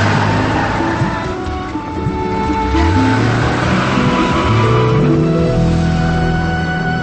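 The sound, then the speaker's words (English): A car drives off, its engine droning loudly and steadily and climbing in pitch as it pulls away, with no talk. “They drive off.”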